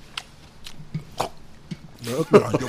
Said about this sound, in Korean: 사례 들리셨어요?